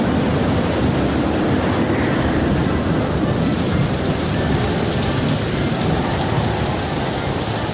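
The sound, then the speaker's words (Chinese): Heavy typhoon rain pours as a dense, steady, loud roar with low rumbling thunder beneath it, unbroken from start to finish. “八弟，台风好厉害啊，才一下子就下起大雨了。”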